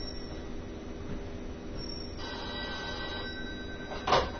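A telephone rings, a faint electronic ringing over a steady low background hum, with a brief louder burst near the end.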